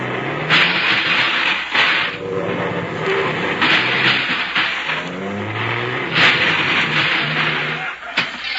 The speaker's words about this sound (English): You better double park the bus. There's no room there. Oh, I can get in between those two cars.